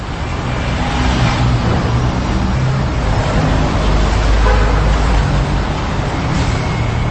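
Street traffic noise: a steady, loud roar of road vehicles that runs on without breaks, dense and even throughout.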